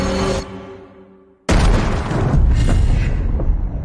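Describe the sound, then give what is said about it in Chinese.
A sudden, loud gunshot-like blast cuts off fading tonal music, then a dense, noisy rumble continues at full loudness to the end. “赶快开枪！”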